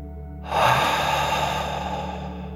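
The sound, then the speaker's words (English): A deep breath taken during a guided relaxation exercise, breathed out through the mouth as if breathing fire. It is one sustained, breathy rush of air lasting about two seconds, steady and fairly loud, over a faint constant tonal hum. “breathe out through your mouth, pretending you are breathing fire. Ready? Take a deep breath in and out.”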